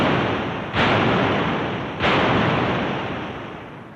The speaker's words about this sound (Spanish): Ordena foguear, impactar contra la tropa portuguesa. Las baterías musulmanas abren fuego.